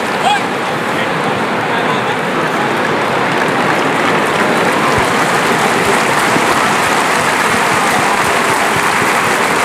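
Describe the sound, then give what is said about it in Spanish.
A bullring crowd applauds bullfighter Morante after a failed sword thrust, a dense, even wash of clapping that holds at a loud, constant level throughout, with a commentator's voice running over it. “El público que anima a Morante, pese al pinchazo.”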